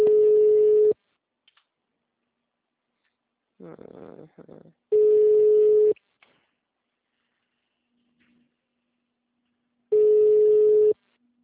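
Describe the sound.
A building concierge intercom rings: three loud, steady one-second electronic tones at a single pitch, repeating about every five seconds, with a brief muffled noise between the first two.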